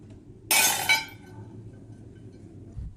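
Flawed kiln-fired porcelain pieces smashed at a family porcelain workshop in Chenlu ancient town after the kiln is opened; one sharp, bright shattering crash is quickly followed by a second clinking burst, then fades to near quiet.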